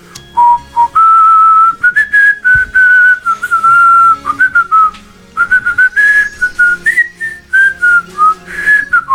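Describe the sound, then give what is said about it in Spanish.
A person whistles on both the in-breath and the out-breath, producing a loud, wavering melody of many short phrases with quick gaps between them, the pitch sliding up and down. The whistling is heard alone. “de Basauri, que sabe silbar mucho tiempo, porque silba para adentro y para afuera, ¿no? Como algo, yo también sé hacerlo.”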